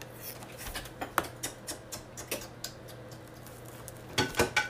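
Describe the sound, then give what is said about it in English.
Knife slicing through a block of Spam: a steady run of soft, regular ticks and taps about every quarter second, ending in a louder, quicker cluster of cuts. “next, I'm going to slice up my Spam.”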